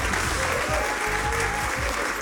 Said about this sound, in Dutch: Applaus, dames en heren.